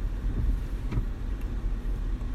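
Car engine and road noise while driving, a steady low rumbling drone that holds at an even level throughout with no talking.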